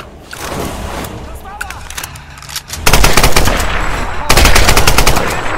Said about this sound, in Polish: Ty słuchajcie, skąd oni do mnie strzelają?